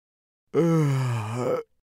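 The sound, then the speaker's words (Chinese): A voice imitates a dog yawning: one smooth, drawn-out groan of about a second, voiced and fairly loud, dipping slightly in pitch before lifting at the end, heard alone. “大黄打着哈欠说，”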